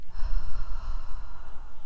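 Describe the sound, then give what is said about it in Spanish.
A long, steady exhaled breath during a guided breathing meditation, a soft airy rush that holds at an even, moderate level throughout with no voice over it. “Inhala y exhala. Inhala. Y al exhalar,”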